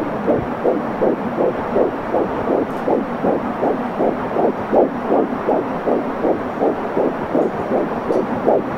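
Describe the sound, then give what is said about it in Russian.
Fetal heartbeat picked up during an ultrasound scan: fast, steady whooshing throbs, many in an even rhythm, pulse over a low continuous hum with no voices. “что это вот звуки живого, зародившегося уже организма, и это во время УЗИ женщина может и слышать”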